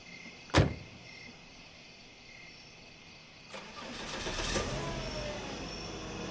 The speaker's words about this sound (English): Elle climbs into the front seat.